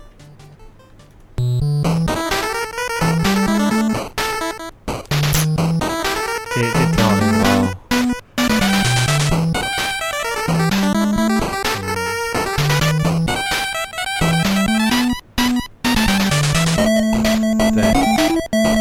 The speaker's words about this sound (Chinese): 对，这个是这个游戏叫就是《唐老鸭梦冒险》， 叫 DuckTales。 嗯， 你听到的是用两个声道，然后错位的方式给你提供了一个回声的效果，